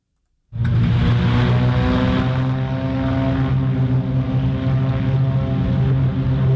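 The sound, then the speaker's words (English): Beechcraft Bonanza propeller airplanes take off at a regional airport. A loud, droning engine roar starts abruptly after a brief silence and holds steady, rich in low humming tones. “That's the sound of three Beechcraft Bonanzas taking off from the La Crosse Regional Airport over the weekend on their way to Oshkosh.”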